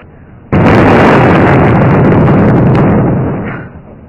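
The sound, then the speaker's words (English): Missiles explode in a loud blast that bursts in suddenly, then a dense, sustained roaring rumble fades over about three seconds. “Listen, those missiles have all gone off.”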